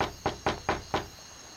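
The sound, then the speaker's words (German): Four knocks on a door in the middle of the night, evenly spaced, sharp and hollow, each with a short decay. They sound alone against a quiet background. “Ich klopfe mal.”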